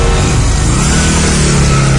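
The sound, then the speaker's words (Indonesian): Loud, roaring engine as a vehicle accelerates hard, a thick, steady low drone with a strong humming tone that holds at full volume for the whole stretch. “Dan seketika itu juga aku langsung tancap gas.”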